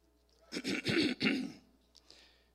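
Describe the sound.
Deliberate throat clearing, done on purpose to grab attention: a few rough, gravelly bursts in quick succession, followed by a fainter trailing rasp before it settles into quiet.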